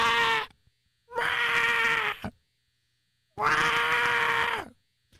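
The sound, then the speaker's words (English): A voice imitating a baby otter screeching for its mother: three drawn-out, high, strained wails with gaps of silence between them. “But every time she left, the baby would start screeching like,”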